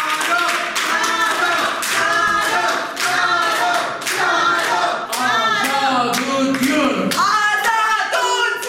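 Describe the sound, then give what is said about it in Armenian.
Rhythmic clapping and chanting fill a crowded courtroom as a defendant arrives at an open hearing, with many hands striking in steady unison and voices chanting over the beat. The sound stays loud throughout with brief dips between phrases. “ում մարդաշատ դահլիճը դիմավորեց ծափերով ու վանկարկումներով”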